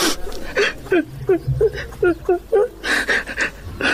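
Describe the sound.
A woman crying in a rhythmic string of short, halting sobbing bursts, each a breathy gasp or whimper, loud and close together with brief gaps between.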